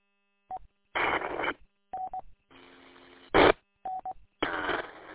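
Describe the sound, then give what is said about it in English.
Amateur radio transmission tones: a few short electronic beeps alternating with louder bursts of hiss and a longer low buzzing stretch, all separated by brief silences. “Yeah, it looks like I'm transmitting here, too. Looks like my tone was all right.”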